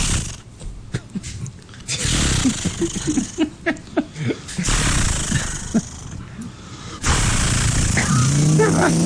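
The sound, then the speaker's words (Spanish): A man's voice imitates a chainsaw being started: rough, sputtering vocal bursts in a choppy series, then longer stretches of sustained buzzing like the saw revving. “Dice, primero hay que prender. No, eso es una motosierra. Que hay que prenderla. Hay que prenderla.”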